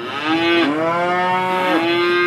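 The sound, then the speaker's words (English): Prize cattle moo in the cattle tent of a large farm show, a single loud, long, low bovine call that wavers slightly in pitch as it is drawn out, heard alone without talk. “In the cattle tent, Graham Powell is pampering his prize cows”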